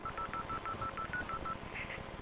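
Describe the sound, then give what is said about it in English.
Touch-tone dialing on a customer-owned coin payphone placing a call to a toll-free number: a quick series of many short, even beeps, faint beneath a steady hiss of line noise. “This is the CoCot recording of me calling TellMe direct.”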